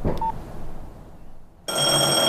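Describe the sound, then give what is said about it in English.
A telephone ringing: after a short quiet stretch, a loud, steady electronic ring with bright tones starts suddenly and continues to the end. “No, it's all right, I'll get it. No. I said no. Look, I'm here now. You answer your phone.”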